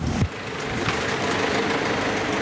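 A bus engine drones steadily as the bus pulls away toward Herisau after a passenger boards by its wheelchair lift. The low, even rumble holds throughout, with a brief knock near the start and no voices.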